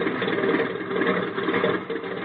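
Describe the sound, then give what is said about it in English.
An airplane engine idles while the plane taxis, a steady muffled rumble with slight fluctuations, moderately quiet and continuous with no voices. “you're turning the plane around. Certainly. Now we taxi.”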